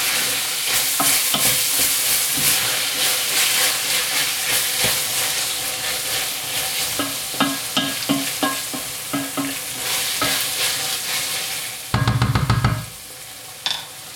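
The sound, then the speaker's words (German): Meat, onions and tomato paste sizzle in lard with spice powder, a dense, steady frying hiss broken by a few clinks and scrapes of stirring, then a brief louder burst of sizzle near the end. “das brutzt jetzt hier vor sich hin mit dem Pulverchen drin. Dem Tomatenmark, das Fleisch und die Zwiebeln und das Schmalz”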